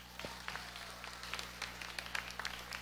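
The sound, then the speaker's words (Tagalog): Faint applause for the parents at a graduation ceremony, with many scattered, uneven claps over a soft background. “Okay, parents. Again, palakpakan niyo yung mga parents niyo.”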